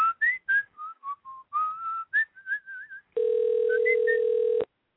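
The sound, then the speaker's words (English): A computer-controlled telephone dials: a run of short, pure whistle-like tones that step between pitches, then a steady buzzing line tone that holds for over a second and cuts off abruptly, leaving silence. “I don't hear any dialing. Ah, there it is.”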